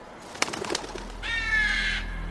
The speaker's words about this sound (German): ich habe gerade einen Vogel gefilmt